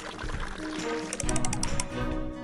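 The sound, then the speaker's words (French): Game sound effect of juice poured into a popsicle mould in a video game: a soft liquid pour with a run of bright, chime-like sparkle tones in the middle. “Choisis maintenant une saveur de jus et verse dans le moule. Incline simplement pour verser.”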